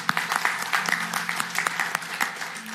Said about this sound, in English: So let's welcome those that said I will today and give them a hand and stand with me, please.